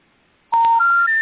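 A telephone dials a call: after a brief quiet, a quick run of loud keypad tones plays back to back, each one stepping higher in pitch than the last.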